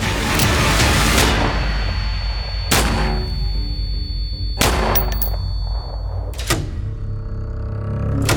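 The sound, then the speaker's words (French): Gunshots fired at point-blank range by a burglar at a person in a bedroom: a few sharp, loud bangs stand out over dense, continuous noise. “Le cambrioleur s'avance et il tire sur Rachel. 3 balles à bout portant.”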